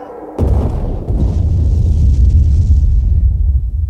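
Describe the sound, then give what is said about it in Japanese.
A video game explosion hits with a sudden loud boom, then rolls into a thick, sustained low rumble that lasts to the end. “爆発したよ”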